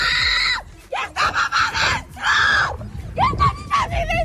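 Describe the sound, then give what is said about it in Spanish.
A woman screams desperately as flames close in on her house in Villa del Prado: a run of loud, high, strained cries broken by brief gasping pauses. “Y los pelos de punta con alguno de los vídeos como este, por ejemplo, de una mujer que chilla desesperada viendo cómo las llamas van a alcanzar su casa en Villa del Prado.”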